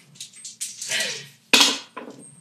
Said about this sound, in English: Roll the next dice.